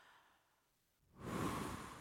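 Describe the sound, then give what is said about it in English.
A group taking one deep breath together: after a second of near silence, a broad breathy rush swells up and holds steady to the end, with no talk. “Take a deep breath. Let's take a deep breath together.”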